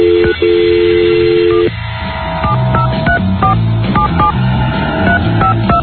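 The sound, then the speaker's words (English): A telephone number is dialed: a steady held tone gives way to a quick series of short touch-tone beeps at varying pitches, loud and clear. “Okay, here we go. Dialing her up right now.”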